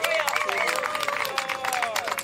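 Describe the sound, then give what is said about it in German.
Audience applause at an event for a backstage helper being thanked: dense, steady clapping fills the whole clip at an even loudness, with thin wavering tones running over it. “Das ist jetzt dein Applaus und unser Dank an dich.”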